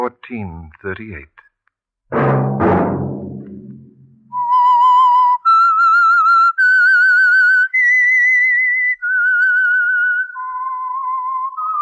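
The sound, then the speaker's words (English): A whistled tune used as a signature signal: about seven sustained, clear notes with wavering vibrato, loud and alone, following a short stretch of voices. “Let that whistle be your signal for the Signal Oil program, The Whistler.”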